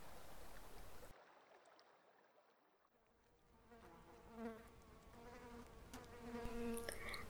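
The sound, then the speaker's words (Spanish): Wasp buzzing: a steady droning hum with layered harmonic tones that swells gradually louder toward the end, with no voices. “Avispa me llaman. Normalmente soy aquella que a los humanos incomoda. Dicen que no sirvo para nada, que solo molesto y pico,”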